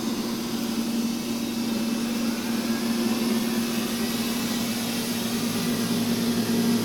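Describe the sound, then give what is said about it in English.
Steady whirring hum of a robot vacuum cleaner as it vacuums, a constant low drone with an airy hiss that stays even throughout. “It does a 360 degree turn to take the inventory, and then it just starts to vacuum.”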